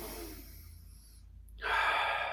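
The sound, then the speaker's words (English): A deep inhale drawn in during a guided prayer, soft and airy at first and then swelling into a louder, breathy rush of air near the end. “And we inhale”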